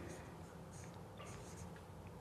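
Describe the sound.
Scratchy strokes of drawing on paper or a board, quiet and continuous, with brief brushing bursts over faint murmuring voices.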